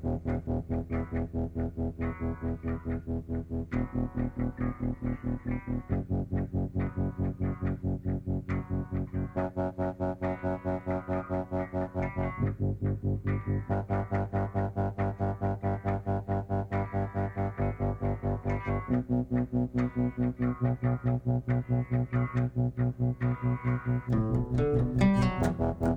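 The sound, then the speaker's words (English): A distorted electric guitar riff in E minor repeats steadily over a bass pedal that shifts to a new note every few seconds. The rhythmic pulse is constant and driving, and no voices are heard. “I really like the E minor guitar riff. I think that sounds really cool with the changing bass pedal.”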